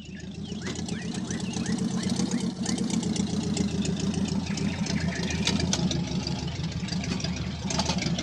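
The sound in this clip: Early Benz motor car engine idling in an old inn's courtyard, a steady, rapid chugging throb at even loudness that runs through the whole clip.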